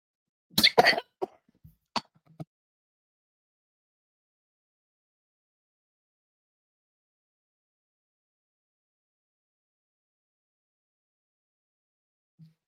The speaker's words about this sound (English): Coffee went down the wrong way. God damn it. That's what happens when I try to breathe, talk, and drink coffee at the same time.